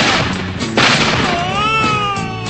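A burst of gunfire cracks through a dense, noisy mix, followed by warbling, whistle-like tones that rise and fall.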